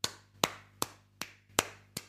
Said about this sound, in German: Da klatschen wir. Ja. Also ich klatsche da.